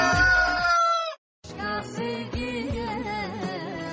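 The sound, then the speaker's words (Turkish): A rooster crows in two loud, harmonic bursts separated by a brief silence; the second call is longer and wavers in pitch, with no talking. “Ne oldu horoz?”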